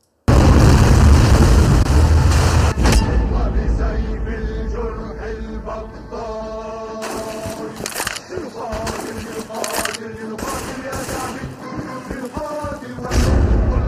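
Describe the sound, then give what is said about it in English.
Video game explosions from a tank that lobs hand grenades: a loud, dense burst opens, then several sharper bursts and thuds break through a quieter tonal background. “So he's got a tank that fires hand grenades. Like, not like a grenade launcher. Like a tank that just lobs hand grenades 8 feet.”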